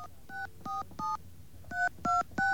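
Six touch-tone telephone keypad beeps dial into a voicemail system, in two groups of three separated by a short pause. Each tone is brief and steady over a faint low hum.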